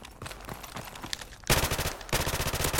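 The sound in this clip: Rapid automatic gunfire from a shooting video game: fast, loud bursts erupt halfway through and rattle on steadily, after a quieter stretch of scattered shots and clicks.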